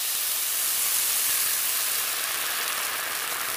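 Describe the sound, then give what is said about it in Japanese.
Water and sake are poured into a hot frying pan holding browned hamburger patties, giving a loud, steady hissing sizzle of steam that stays even and unbroken from start to finish. “そのままひっくり返して裏面も焼き色をつけたら、お水 50cc、 ソースの材料の酒大さじ2を入れて、”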